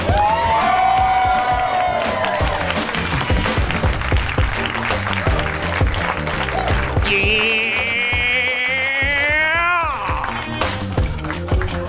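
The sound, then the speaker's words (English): Audience cheering and applauding as a comedy show host is welcomed to the stage, a loud continuous crowd roar mixed with music and rising tonal sweeps toward the end. “Won't you please welcome to the stage the mayor of Harmontown, Mr. Dan Harmon.”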